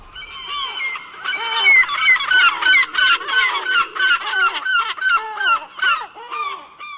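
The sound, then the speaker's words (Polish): Gulls calling over the sea: many harsh, wailing calls overlapping in a dense, steady chorus, loud throughout with no voices. “Co tak krzyczy nad morzem? Z reguły właśnie mewy mają takie zawodzące głosy.”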